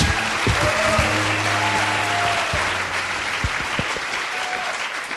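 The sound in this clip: Audience applause welcoming the hosts of a live show onto the stage: a loud, dense, sustained wash of clapping that holds steady throughout and eases only slightly toward the end.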